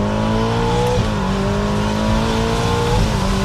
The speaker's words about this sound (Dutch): En dan schakel je bijvoorbeeld terug naar z'n 2 bij 70 en een vol op het gas.